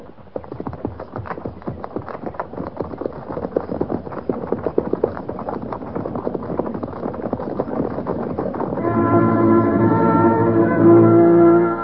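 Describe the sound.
Horses trot along a trail with a cavalry party, giving many steady, rhythmic hoof clops over a rough outdoor rumble. Near the end a sustained musical tone with rich harmonics enters and holds loudly over the hoofbeats.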